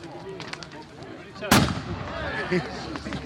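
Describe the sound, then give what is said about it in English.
A large gun fires a single loud, sharp boom at a wassail to drive evil spirits from the trees. The blast rings out briefly amid soft talk from the gathered people. “This rather large gun is going to be fired off now. Let's get rid of those last evil spirits up in the tree there.”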